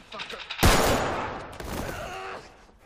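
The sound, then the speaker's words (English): Gunfire in a shootout: a sudden loud blast bursts in and trails off in a long, rough, decaying roar that fades slowly toward the end. “Stop fucking shooting, man!”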